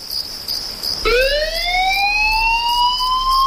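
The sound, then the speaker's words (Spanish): A fire brigade alarm siren on Tenerife winds up abruptly and wails loudly, its pitch rising steadily and then holding high to the end, over a faint, steady high chirping. “Son las 4 de la madrugada. Suena un aviso. Alguien necesita ayuda en algún punto de la isla. Y mientras tú duermes tranquilo, Bomberos de Tenerife ya está en camino.”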